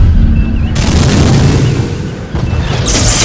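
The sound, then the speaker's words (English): Photon torpedoes fired from a starship make a loud, sustained, rumbling blast effect with a couple of abrupt surges in its roar. “fire the rest of the photons! Torpedoes away!”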